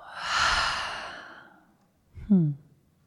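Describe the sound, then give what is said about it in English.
A long breath is exhaled through an open mouth in a soft, breathy whoosh that slowly fades, then a brief voiced sigh drops in pitch. “let's take another long breath in. Open the mouth and let it go.”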